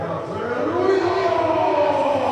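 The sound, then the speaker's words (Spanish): A baseball stadium crowd makes noise during an at-bat, a loud, steady roar with no breaks. “Y acá el público haciendo su parte, haciendo ruido.”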